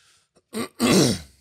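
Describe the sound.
A person clears their throat during a video game session: a short rasp, then a longer, louder, rough clearing burst.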